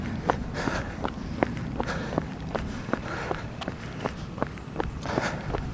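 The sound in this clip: Running footsteps on a Saturday morning run, many quick, evenly spaced footfalls in a steady rhythm at moderate loudness, with no talking.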